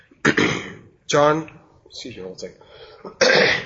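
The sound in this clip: Throat clearing from someone with honeycomb stuck in the throat: a few harsh, raspy bursts with short pauses between them, alone without other talk.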